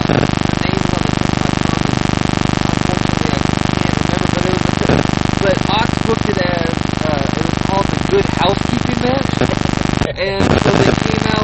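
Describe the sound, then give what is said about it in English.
A car's engine runs steadily while driving, a dense, unbroken drone with people talking over it and a brief dip near the end. “We're driving right now.”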